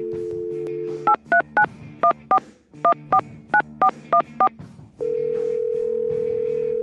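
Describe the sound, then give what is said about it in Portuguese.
Telephone keypad tones as a phone number is dialed: a steady dial tone, then a rapid, evenly paced run of many short beeps in small groups, followed by another steady tone, with no talk. “Deixa eu pegar o telefone, né? Porque se eu mandar só mensagem convidando, pode ter certeza que ele lê, ignora, pula fora, enfim. Então vou discar aqui o número.”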